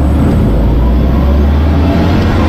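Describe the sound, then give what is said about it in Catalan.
An electric car gives off a loud, steady low whirring rumble that holds constant throughout, with no distinct changes or separate events. “És el so del teu nou cotxe elèctric.”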